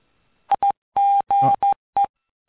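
Telephone keypad tones sound on a call-in line after a caller hangs up: six short, clean beeps at the same pitch, unevenly spaced, with a couple of longer tones in the middle.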